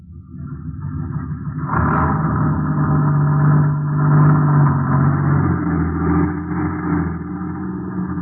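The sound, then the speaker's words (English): A vehicle's engine rumbles as it is driven out in a radio drama scene, starting quietly, then surging louder and holding a steady mid-pitched drone to the end. “Yeah, we better get down. He's driving it out.”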